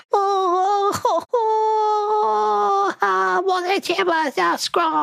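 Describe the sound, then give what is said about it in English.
A human voice imitates a Mitflit wailing and keening in grief over its fallen, bloodied boss: long sustained, wavering cries, loud and alone, broken by short gasping breaks and quivering sobs. “the other Mitflit kneels down and puts his hand on Boss Scrog's bloody forehead, and he rears his head back and begins to wail and cry and begins keening.”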